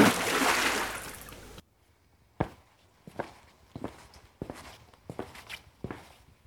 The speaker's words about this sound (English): Now that is the sound of someone walking, and that someone is me, walking across my studio to the door, then opening it. then going through the door, and then closing it.